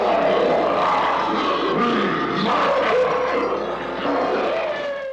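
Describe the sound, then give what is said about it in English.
A deep, rasping monster roar, the King Kong Roar effect used as a vocalization of an abominable snow monster in a stop-motion Christmas special, sustained and loud for several seconds with a couple of swelling growls. “That was the Abominable Snow Monster, aka the Bumble, from the old stop-motion Christmas special Rudolph the Red-Nosed Reindeer. One of the Bumble's vocalizations is a sound effect called the King Kong Roar.”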